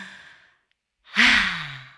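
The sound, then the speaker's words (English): A deep, deliberate breath out through the mouth: a loud, breathy sigh with a low voiced hum, swelling suddenly and then slowly fading, after the soft tail of an earlier breath and a short silence. “Taking a massive inhale through our noses and a beautiful, glorious, light-filled exhale”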